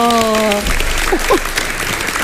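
Applause from an audience during a timed word-guessing game show, a steady dense clatter of clapping following a brief held tone at the start.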